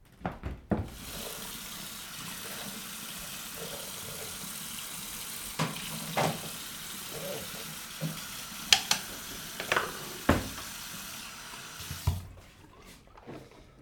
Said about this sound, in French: Je vais me laver les dents.